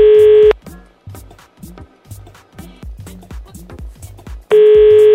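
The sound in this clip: A steady telephone dial tone sounds loudly for about half a second as a call is being dialed. It then drops out under rhythmic background sounds and returns at the end.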